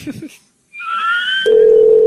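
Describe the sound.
Telephone line tone after a caller hangs up: a brief voice at the start, then a pause, then high wavering tones, then a loud, steady single tone that holds to the end.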